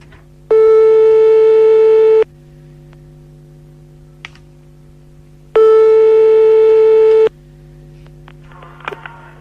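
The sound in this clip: Telephone ringback tone while calling a listener live: two long, steady, buzzing tones at the same pitch, separated by a pause of several seconds, over a faint low hum.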